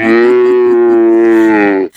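Cow mooing: one long, loud, sustained moo that holds a steady low pitch for nearly two seconds before breaking off abruptly.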